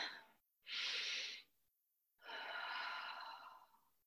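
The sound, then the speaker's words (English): A deep breath taken during prayer and meditation: a soft, airy inhale lasting under a second, a moment of silence, then a longer, steady exhale that slowly fades, quiet and alone. “First, let's take a deep breath.”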